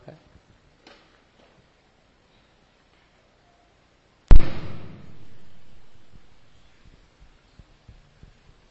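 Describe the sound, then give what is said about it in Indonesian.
A single sharp firecracker bang cracks out of near silence and fades over about two seconds, with only a few faint ticks before and after. “Mercon.”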